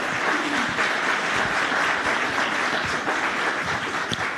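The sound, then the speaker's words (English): An audience applauds to welcome the mayor onto a stage, with steady, dense clapping that holds at an even level throughout. “So please give a big hand and join me in welcoming Mayor Lowry to the New Memphis stage.”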